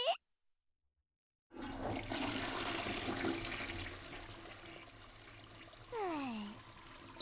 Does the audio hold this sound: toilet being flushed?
yes

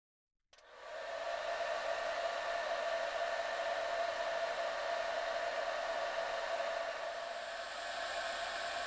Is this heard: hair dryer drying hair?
yes

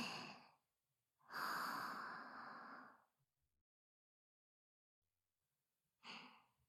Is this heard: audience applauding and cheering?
no

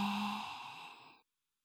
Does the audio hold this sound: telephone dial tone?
no

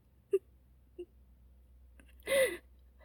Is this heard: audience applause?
no

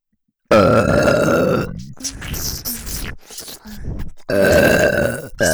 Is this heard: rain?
no

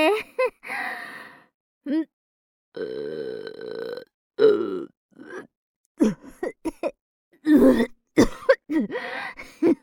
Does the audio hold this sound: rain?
no

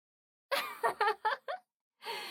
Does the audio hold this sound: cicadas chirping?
no

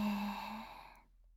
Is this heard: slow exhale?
yes

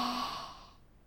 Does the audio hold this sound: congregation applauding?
no

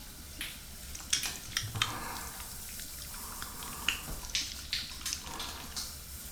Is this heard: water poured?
yes

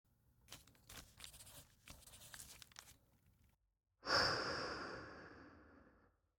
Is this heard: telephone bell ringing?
no

